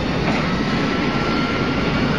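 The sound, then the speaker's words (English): Airplane engines roar as the aircraft climbs and gains altitude after power is added, a loud, dense, steady rushing drone with no clear change in pitch across the short stretch. “I'm climbing. Come on. The plane gains altitude.”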